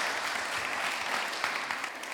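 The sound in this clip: An audience at an Appalachia Service Project evening claps to welcome a speaker to the stage, a steady, dense wash of applause that holds at an even level throughout.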